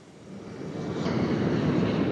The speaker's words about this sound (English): As we talk, a plane that's been in storage is taking off from the runway, bound for Asia, the Middle East, or South America, where fuel is cheaper.